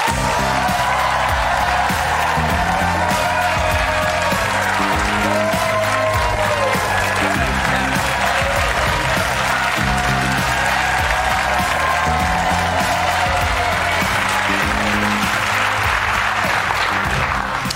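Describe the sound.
Loud, sustained studio audience applause welcoming an actor as a guest on a late-night talk show, a dense, steady wash of clapping with faint cheering that holds at full strength throughout.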